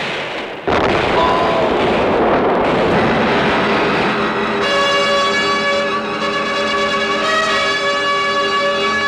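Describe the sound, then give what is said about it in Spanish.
Cannon fire in a naval battle between sailing ships: a sudden loud blast opens into a continuous heavy, roaring rumble. Midway, a steady droning tone joins the rumble and runs to the end. “En alta mar ocurrió un encuentro con los barcos españoles. ¡Fuego! ¡Fuego!”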